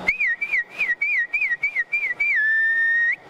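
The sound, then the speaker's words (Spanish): A herding whistle calling a milk cow to the corral, loud and alone: a run of quick, warbling high notes that rise and fall, ending in one long, steady held note. “A veces el ganado se acostumbra al silbío, ¿no? Al silbío. Por ejemplo, llegaba usted y iba a buscar la vaca de ordeño y comenzaba,”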